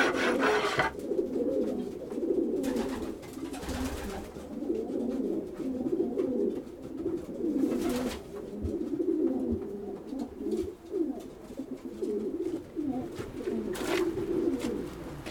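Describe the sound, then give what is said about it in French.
Homing pigeons coo in a pigeon loft, a continuous low burbling chorus of many birds, with intermittent rasping scrapes cutting through. “La colobophilie, c'est bah, c'est l'élevage de pigeons voyageurs.”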